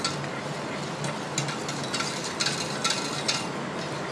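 A mixture is stirred by hand to combine it, giving a light, continuous scraping with a few soft clicking taps spread through. The sound is fairly faint and there is no talk.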